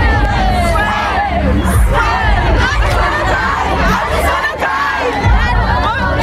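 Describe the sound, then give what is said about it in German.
A crowd of fans sings and cheers outside a concert arena in Munich ahead of a concert by a seven-member boy band, a dense, loud wall of many voices that stays steady throughout. “Radio Teddy Luisa ist für euch am Start, ist vor der Arena und ist auch dabei, wenn die Fans euren Radio Teddy Superhit singen.”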